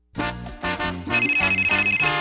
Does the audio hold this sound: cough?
no